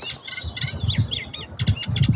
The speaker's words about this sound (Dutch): En ze dacht eigenlijk dat ze met een bosrietzanger te maken had. Maar dankzij onze cursus Vogelgeluiden herkennen, zo schrijft ze ons, haalt ze er een kleine karekiet uit.